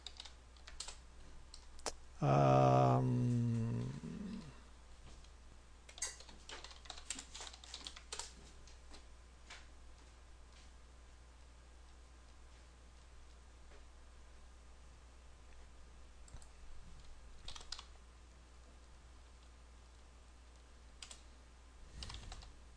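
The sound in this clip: Several people type on computer keyboards during a group brainstorming session. The faint, scattered clatter of keystrokes runs throughout, and a short, loud tonal burst sounds near the start.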